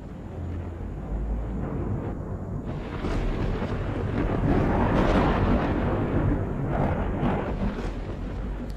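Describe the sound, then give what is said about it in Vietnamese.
Thunder and lightning strikes as a sound effect: a loud, continuous low rumble with broad crackling noise that swells and grows heavier partway through, then holds without distinct separate cracks. “ở trên trời cao, những tiếng nổ đoàng đoàng vang lên, là những tiếng sấm sét cắt ngang bầu trời.”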